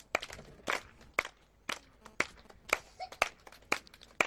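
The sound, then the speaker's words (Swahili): A church audience clapping hands: sharp, crisp claps at uneven intervals, fairly faint, some close together and some spaced apart, with a thin background between them. “Tupige makofi.”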